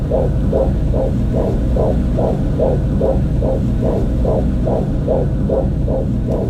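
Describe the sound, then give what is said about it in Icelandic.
Recorded heartbeat of an unborn baby: a fast, steady run of many soft whooshing throbs over a constant low hum, loud and even throughout, with no voices. “Þau stálust til að taka upp hjartsláttinn í barninu í síðasta sonar. Takturinn sterkur og fallegur.”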